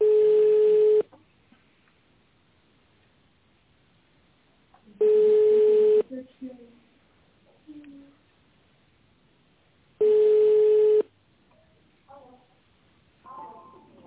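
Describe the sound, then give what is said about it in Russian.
A telephone line rings while a number is redialed: three long ringback tones, each about a second, evenly spaced by several seconds of near silence, with faint scattered noises between them. “Линия абонента пока занята. Ну, я продолжаю дозвон.”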